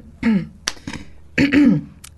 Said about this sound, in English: I love the way you cleared your throat.